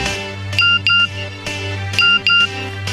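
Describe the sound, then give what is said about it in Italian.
An SMS text message notification tone played by the studio: short, bright, high beeps in two pairs, with the pattern repeating twice over a steady low droning background. “Eccolo qua. Grande Carmelo mi ha fatto dalla regia un regalo. È un SMS che potrebbe ricevere qualsiasi genitore”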